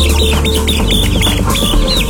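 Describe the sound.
Chicks peep in quick, high-pitched cheeps, repeating busily over a steady low backing sound.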